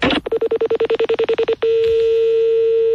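Telephone number being dialed: a rapid run of many short, evenly spaced keypad tones, then a single steady tone that holds on alone.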